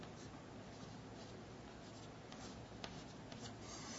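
Faint scratchy strokes of drawing a hexagon on a board, a soft continuous scraping and rubbing with a few slightly sharper ticks scattered through, quiet and with no voices.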